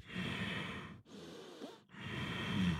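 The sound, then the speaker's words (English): Strong, forceful breathing in and out during Ashtanga Vinyasa yoga practice: three long, airy breaths with short pauses between them, heard alone without talk. “I see a lot of students come to me with a really strong breath.”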